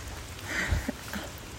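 Steady rain falling in a neighborhood while someone walks outdoors in it, a continuous broad hiss with a couple of soft low thumps and no talk.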